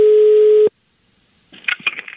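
A telephone call being placed: a steady electronic line tone holds, cuts off abruptly, and after a short silence faint crackly line noise and muffled sounds come through the handset.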